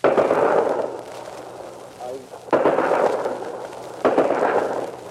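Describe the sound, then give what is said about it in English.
Artillery fires at night, three heavy booms each trailing into a long rumbling decay, spaced a couple of seconds apart. “artillery observers call down fire on any moving object in the blackness ahead.”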